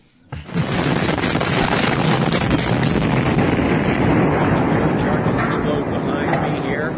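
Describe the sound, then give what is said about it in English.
Demolition charges detonate at a domed stadium near Detroit in a blast that fails to bring it down: a sudden loud burst, then several seconds of dense crackling roar that stays loud throughout. “That's the sound of the Pontiac Silverdome being exploded, except it did not fall down.”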